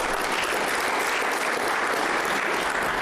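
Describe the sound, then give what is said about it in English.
Steady, dense applause from an audience at a regional council address, even in loudness and continuous for about three seconds, with no voices on top. “Let's give them a round of applause, please.”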